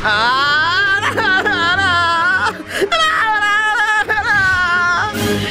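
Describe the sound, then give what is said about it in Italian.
A person whimpering and crying in a loud, wavering, high-pitched voice, with sobbing breaks and strained, exaggerated wails running throughout. “perché piangi?”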